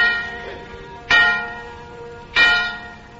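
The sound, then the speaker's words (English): An old bell is picked up and rung twice. Each ring starts with a sharp clang and leaves a ringing tone that hums and slowly fades between the strikes. “he picked up the widow bell, and he said to himself, "My, what a lovely sound. What has we here, though?"”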